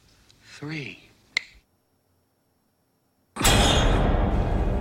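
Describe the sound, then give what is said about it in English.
A single sharp finger snap from a hypnotist waking a woman in a horror film. It comes just after a brief voice and is followed by silence, then a loud noisy burst. “I'm going to count to three, Carol Ann. And when I snap my fingers, you will awaken.”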